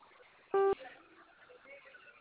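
A single phone keypad tone from pressing zero, a short, steady electronic beep lasting about a fifth of a second over a faint background hiss.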